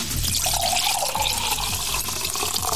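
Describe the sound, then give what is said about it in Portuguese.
A drink is poured to fill a glass, a fairly loud, steady splashing and gurgling stream that runs unbroken throughout, with no voices. “Pronto. Enche o copo aí. Enche, enche.”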